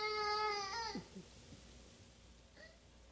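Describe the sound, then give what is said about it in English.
A young child crying in a temper tantrum: a loud, high, wailing cry for about the first second, then breaking into short, quieter whimpers and sobs over a faint background. “I'll be glad when he stops his temper tantrum. It's hard listening to him carry on like that.”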